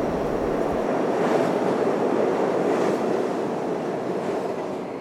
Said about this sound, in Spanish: El tren se aleja.